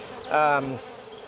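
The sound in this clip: Honey bees buzzing in an open hive being inspected for its queen: a brief, loud swell of steady, pitched humming rises, holds for a moment, then fades back into a softer background drone.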